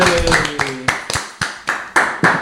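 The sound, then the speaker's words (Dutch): A small group claps for two mothers being thanked on stage. The claps are sharp and irregular after a brief voiced shout at the start. “Geef ze een ovationeel applaus.”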